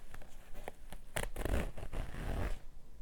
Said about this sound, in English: unzip those pants for you. Oh, you like the way I drag that zipper down slowly for you.